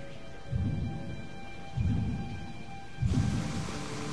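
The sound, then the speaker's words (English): Steady rain pours outside, a broad hiss that runs throughout, broken by three deep rumbling surges that swell and fade at regular intervals. “Travis is outside in the rain.”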